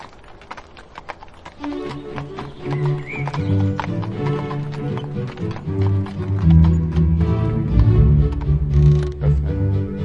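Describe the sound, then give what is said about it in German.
Hooves of a horse pulling a Fiaker carriage clip-clop in a brisk, steady rhythm, joined after a moment by a low rumbling underneath. “Halt! So, da macht der Fiaker jetzt einen kurzen Stopp.”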